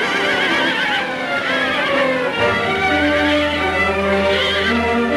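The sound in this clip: A horse neighs and whinnies loudly as it rears up on its hind legs and dashes off into the jungle; the call is continuous and full-bodied with shifting, layered tones across the whole stretch.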